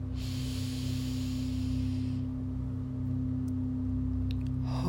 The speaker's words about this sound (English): Inhale into the throat chakra.